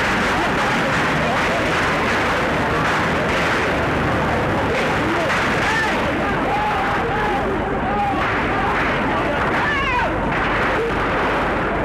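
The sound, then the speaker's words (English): Gunfire breaks through a jubilant crowd celebrating the liberation of Paris, a dense, steady roar of cheering voices with sharp bursts of shots mixed in. “Bullets again interrupt the jubilance, but only for a moment.”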